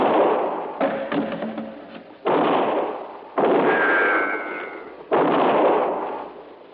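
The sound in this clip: Gunshots ring out as four sharp blasts, each cutting in suddenly and trailing off in a long, rough roar before the next.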